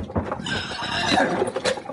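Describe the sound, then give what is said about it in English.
Horses whinny and neigh in a frontier Western scene, with a loud, wavering neigh rising over a busy, continuous bed of hoof clip-clop and stirring. “hold on to them horses”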